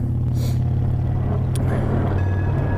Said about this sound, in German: Oh, das war ja so eine Kabelbahn. Das klang jetzt aber ganz schön nah.